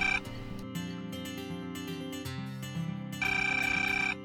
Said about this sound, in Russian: School principal calls a parent at home.